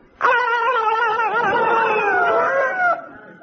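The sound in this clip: A cat yowls as it is chased out through an open window: one long, loud, wavering wail that holds for nearly three seconds before cutting off.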